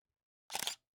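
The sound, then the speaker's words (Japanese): A phone's camera shutter clicks once as a photo is taken: a single short, bright burst lasting about a third of a second, alone against silence. “写真撮ろうっと。はーい、こっち見て。”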